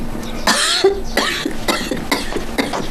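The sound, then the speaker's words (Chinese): An old woman coughing hard and repeatedly: a run of harsh, raspy coughs in uneven bursts with a throaty, throat-clearing edge. The coughs are fairly loud and heard alone, with no talk over them. “看你咳嗽”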